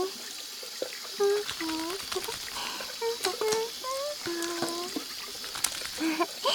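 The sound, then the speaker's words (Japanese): Running water as hands are wetted and then soaped: a steady trickle from a tap with splashing and wet rubbing, fairly faint, under a high-pitched voice talking throughout. “僕はこうやって手を水で濡らして、そしたら石鹸で手を泡泡に。”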